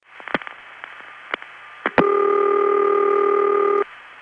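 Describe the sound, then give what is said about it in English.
Telephone exchange switching on a call from an NX1 office routed to an intercept trunk: several sharp clicks and pulses, then a louder click and a steady electronic ring tone lasting nearly two seconds, with no talk. “when an NX1 is going to the intercept trunk, you hear a shorter string of pulses, usually giving the impression of being 2 strings of pulses, with a moderately loud set of clicks before the recording's ring starts.”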